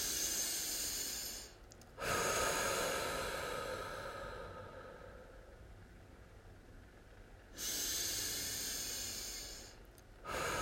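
Slow, deep breaths in through the nose and out through the mouth during a guided relaxation: long, airy hissing inhales and exhales separated by brief pauses, soft and steady.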